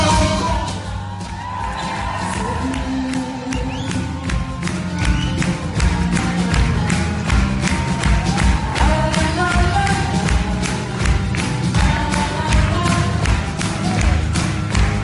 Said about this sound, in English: These French artists get people clapping like that. Yes, clapping and like this.